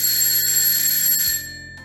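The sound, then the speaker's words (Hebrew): A doorbell rings at an apartment door, a bright, sustained tone that shifts once partway through and then fades, heard alone. “הפעמון צלצל בדלת, ורינגו נעמד מצפה לבאות.”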